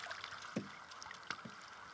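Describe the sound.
A rowboat being moored against a wooded lakeshore, heard as a few soft, faint knocks and bumps over a quiet, steady background.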